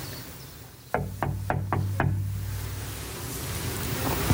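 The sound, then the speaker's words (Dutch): Hard knocking on the door of a family doctor's practice, with no doorbell and the lights off: a quick series of sharp, evenly spaced raps that stand out clearly over a steady low hum. “Ze zijn er wel en ze hebben geen bel. Dus ik moet even heel hard kloppen.”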